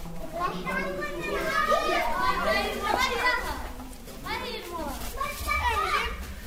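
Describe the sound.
Children playing and shouting in the stone alleys of a village, many young voices calling and chattering over one another in a steady, lively stream without pause.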